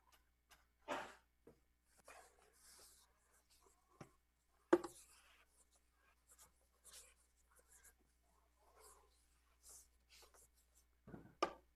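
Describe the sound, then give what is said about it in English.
Writing on a board: faint, sparse scratching strokes come in short, irregular bursts with quiet pauses between them. “Let me write it out, because it's slightly compressed on that slide.”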